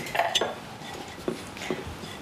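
Light clinks and soft scraping as ingredients are tossed with turmeric powder in a bowl before frying, a few scattered, faint dish-like taps.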